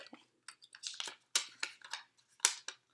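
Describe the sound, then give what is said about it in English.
Colorful paper slips rustle and crinkle as one is drawn from a small jar: many crisp, dry bursts of crackling rattle in quick clusters, with short gaps between them and no talking. “I have this little jar, and it's just filled with colorful pieces of paper with questions or prompts or whatever I feel like talking about. So I'm going to draw one here.”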